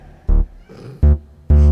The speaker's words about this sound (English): And she meowed right at the end.